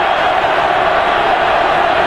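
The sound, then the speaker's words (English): Crowd noise at an American college football game between Arizona and West Virginia, a loud, steady roar from the stands that rises as the offense lines up, unbroken throughout. “Crowd is up.”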